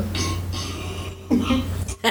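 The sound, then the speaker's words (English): A single loud, low burp played back from a recording, short and guttural, standing out against a faint background hum. “Wait, play the burp. The burp again.”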